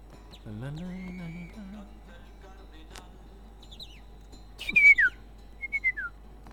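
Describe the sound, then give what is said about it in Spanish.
Whistled calls imitating a great kiskadee: a lower sustained wavering tone first, then a few short, high, descending chirps near the end, with quiet gaps between them. “Grita el bicho feo, dice.”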